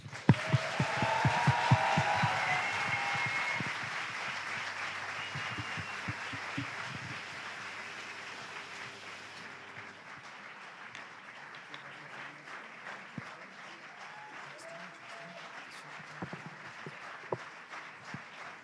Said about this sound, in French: je vais vous demander de faire exactement la même chose, c'est-à-dire taper vos mains très fort les unes contre les autres pour accueillir l'ensemble, hein, la totalité cette fois, pas 0,71%, mais l'ensemble de l'équipe de Pardon Maman.